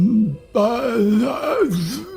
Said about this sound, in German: Ihr hört aber auch zur gleichen Zeit ein Stöhnen